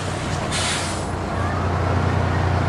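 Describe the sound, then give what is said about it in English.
A bus stops with a brief sharp hiss of air brakes, then its engine rumbles steadily as it drives on, under constant loud road noise. “The bus stops, then moves on.”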